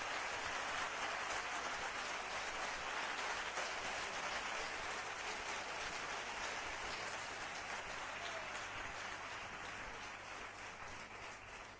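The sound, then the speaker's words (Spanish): Applause for a companion: a dense, hiss-like patter of many hands clapping evenly for nearly twelve seconds, easing slightly toward the end. “Un aplauso para él.”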